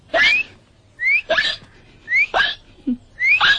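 Four hiccups at a steady pace about a second apart, each a sharp gulping burst with a high, squeaky rising tone.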